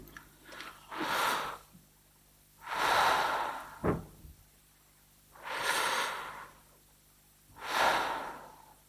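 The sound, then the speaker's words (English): Two slow, deep breaths taken while standing, each an inhale and exhale, giving four broad, soft airy swells with quiet gaps between them, faint and without talk. “Take two deep breaths.”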